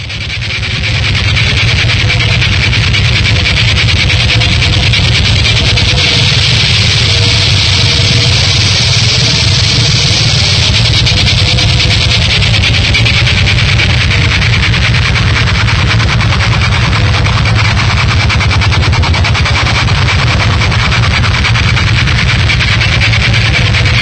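Semi-industrial power noise music from 2000 fills the stretch with a loud, continuous harsh roar, an engine-like droning grind topped by buzzing hiss, holding steady throughout.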